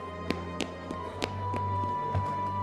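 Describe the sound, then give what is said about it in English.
Footsteps jogging down stairs on an injured ankle, several sharp, slightly uneven thuds in a halting rhythm over a steady low hum. “I jogged the best I could on my injured ankle down the stairs.”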